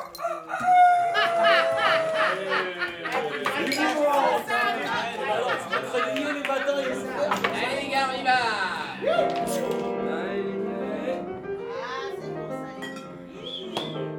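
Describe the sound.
A rooster crows among busy chatter and overlapping voices, with a few crowing calls and clucking-like sounds mixed into a lively, fairly loud scene.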